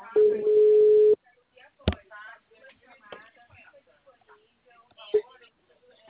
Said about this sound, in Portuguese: a ligação caiu? Isso, caiu.